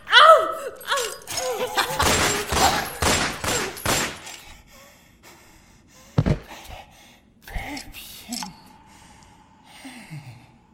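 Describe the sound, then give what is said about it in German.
Gunfire in a tense standoff with a knife: a rapid volley of many loud shots fired in quick succession, then quieter stretches broken by a single sharp crack a few seconds later. “Ich hab doch gesagt, dass ich schießen werde.”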